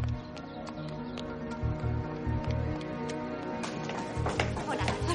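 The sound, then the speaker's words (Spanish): Quick running footsteps of a person hurrying out of the buildings, an irregular clatter of many steps over steady background music. “Corre fuera de los edificios.”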